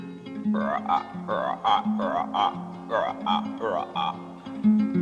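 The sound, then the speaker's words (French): A human voice imitates frogs croaking, making a series of throaty, warbling croaks with gliding pitch. The croaks come in uneven clusters of several calls, moderately loud and alone. “petit garçon s'assoit sur un tronc d'arbre et il écoute les grenouilles. D'abord, elles ne parlent que le langage des grenouilles”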